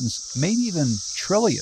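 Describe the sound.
Periodical cicadas of Brood X chorusing: a dense, steady, high-pitched droning buzz that runs unbroken beneath a man's speaking voice.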